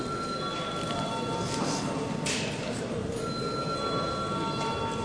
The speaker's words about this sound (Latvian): Lūdzu zvanu.